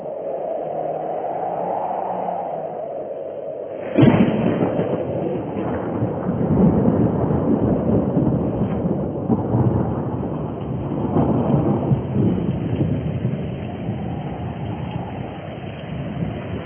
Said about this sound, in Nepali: अनि पानी पर्न सुरु भयो।